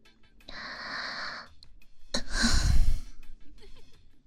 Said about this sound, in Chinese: 叔叔，刚才的呼吸都喷在我这里。